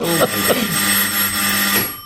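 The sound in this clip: A doorbell rings as someone arrives at the door, a long, continuous electric buzzing tone with several steady overtones that holds for about two seconds.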